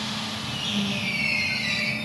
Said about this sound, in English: One of the long, sleek trains glides out of the main station in the heart of Barcelona at the start of a 2.5-hour journey.